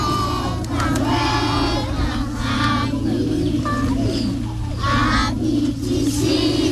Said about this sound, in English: Scores of pupils have gathered in front of their classrooms singing to welcome their teacher, 26-year-old Eunice Esiedua Ejipon, back to school.